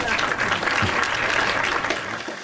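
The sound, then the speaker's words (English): Applause sound effect played on a chat show, heard as a thick, steady patter of many hands clapping at an even, moderately loud level for the whole short stretch. “I feel like I'm doing the applause too much, so I'm gonna do laughter instead. But it has applause as well.”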